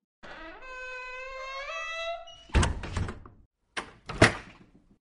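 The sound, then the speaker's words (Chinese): A door closes. A drawn-out creaking squeal comes first, followed by a few dull, heavy thuds separated by short pauses. “对，关上门啊。”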